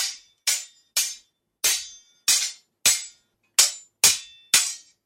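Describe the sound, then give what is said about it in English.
Sharp clashing hits from a staged sword fight between two combatants in a stage drama: a series of crisp, bright impacts with short ringing decays at an uneven pace, with no voices. “Macbeth and young Seaward fight.”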